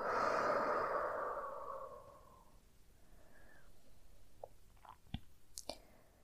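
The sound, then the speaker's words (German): A deep, slow breath during a guided meditation, with a long, airy exhale that fades over about two seconds, followed by faint, soft breathing and a few small clicks. “ganz, ganz, ganz tief in den Bauch atmen. Einatmen. In den Bauch. Und ausatmen.”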